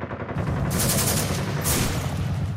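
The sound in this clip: Rapid gunfire fired in continuous succession, a dense, loud, unbroken rattle of shots with brief sharper surges partway through, with no voices.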